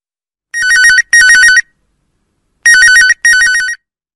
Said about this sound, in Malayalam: നമുക്കൊരു കോളർ ലൈനിലുണ്ട്, ഞാൻ കണക്ട് ചെയ്യാം.